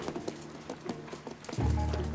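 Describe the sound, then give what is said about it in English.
Faint, slow hoofbeats of horses carrying two riders along the bottom of a ravine, with evenly spaced clops. A low sustained tone comes in near the end. “the two men are riding along the bottom of a ravine.”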